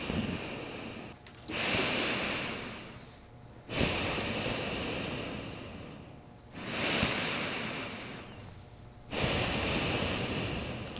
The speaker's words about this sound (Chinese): 然后闭上双眼。 嗯， 然后慢慢的深呼吸15次